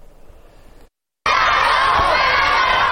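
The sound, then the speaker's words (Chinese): Students shouting and cheering on a school sports ground during a whole-class fitness event. After a brief quiet gap, a loud, continuous roar of young voices begins. “在首都师范大学附属中学实验学校的操场上，呐喊声与欢笑声交织。”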